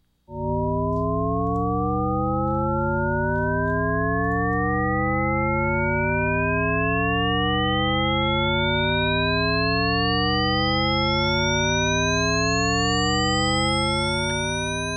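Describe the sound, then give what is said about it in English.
A piece of music built entirely from a Shepard tone: a continuous stack of pure tones glides steadily upward for the whole clip. Loudness stays even, giving the illusion of an endless rise. “The whole thing sounds roughly like this. It's comprised entirely of a shepherd tone,”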